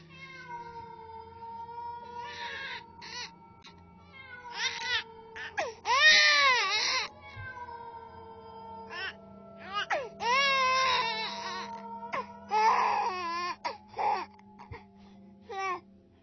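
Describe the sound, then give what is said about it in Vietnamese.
A child cries and a wild cat calls up from a ravine: many high, wavering wails with swooping pitch, some short and some drawn out, over a low steady hum. “văng vẳng từ dưới vực vọng lên lẫn trong tiếng gió, tôi có thể nghe rõ tiếng trẻ con khóc và tiếng con mèo rừng kêu gọi bầy đâu đây.”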